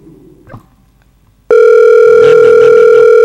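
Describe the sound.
A telephone ringing tone during an unanswered call starts abruptly after a short, nearly quiet lead-in and then holds as one loud, steady, unbroken tone to the end.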